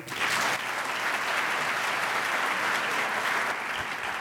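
An audience applauds to welcome author Walter Isaacson at a bookstore event, a steady wash of clapping from many people that stays even for about four seconds and eases slightly at the end.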